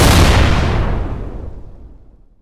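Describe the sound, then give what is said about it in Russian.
A grenade explodes with one heavy, loud boom whose rumbling roar fades steadily over about two seconds, with no other sounds. “Граната с грохотом рванула, раскидывая пыль ударной волной.”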